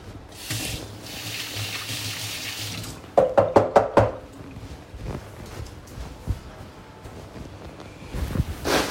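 Water runs from a sink tap while something is washed: first a steady rush of running water, then a quick series of sharp clattering knocks and softer handling noises.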